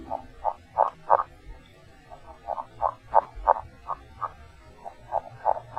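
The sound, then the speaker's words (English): A male northern red-legged frog gives its underwater mating call: several series of short, pulsed croaking notes, about four or five per series, with brief pauses between the series. “Males have a low-pitched, underwater mating call consisting of 5 to 7 notes. It sounds like this.”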